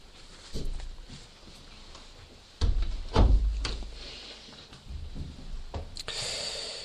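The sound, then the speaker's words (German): Windows being shut, heard as a few dull thuds and bumps, the loudest pair near the middle, with softer handling knocks before and after and no talk. “Jetzt können wir die Fenster wieder schließen”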